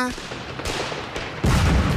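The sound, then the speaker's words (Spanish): Fireworks explode overhead in a rapid string of sharp, crackling bangs. The last burst is the loudest and fullest, and no one speaks. “¡Ay, qué lindo! ¡Los fuegos artificiales!”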